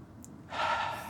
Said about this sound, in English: can you take a deep breath just right now? Mm-hmm. Just take a deep breath.